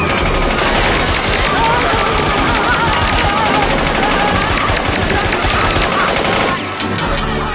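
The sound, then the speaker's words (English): Machine gun fire rattles in a loud, unbroken stream of rapid shots that holds steady almost to the end, with only a slight dip in intensity just before it stops. “Do the machine gun! Go, go!”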